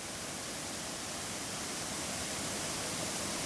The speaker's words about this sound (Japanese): そして滝の音も近くに聞こえだし、